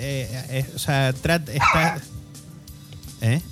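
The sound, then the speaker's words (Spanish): A dog barking in a few sharp, high yelping barks that come in short bursts with brief pauses between them. The barks are loud and upfront. “el perro no es nuestro”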